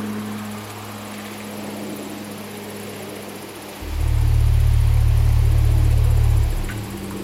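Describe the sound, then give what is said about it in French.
A deep low synthesizer tone imitating a large bumblebee's drone swells in over a steady background hum, holds loud and unwavering for a few seconds, then drops away. “Une espèce de fréquence basse faite au synthétiseur.”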